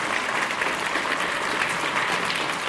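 Audience applause for the governor: a dense, steady wash of clapping hands that holds at an even level throughout, with no voices standing out.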